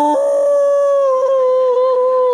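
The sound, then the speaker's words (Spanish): A dog in heat howling at 2 a.m., one long, loud, sustained howl that holds a steady, slightly wavering tone from start to finish. “Resulta que el perro nunca ha hecho lo que hace, pero hoy le ha agarrado que anda en celo. Y son las 2 de la mañana.”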